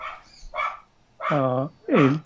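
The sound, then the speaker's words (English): A dog barks a few times in the background, with two longer, strongly pitched yelping barks near the end following softer, shorter ones. “Sorry, I don't know if you can hear the dog.”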